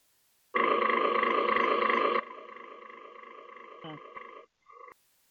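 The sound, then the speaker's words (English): A long belch from a cartoon character: a loud, buzzing, sustained low tone that drops in strength partway through, then trails off and ends with a short final burst. “That was him burping.”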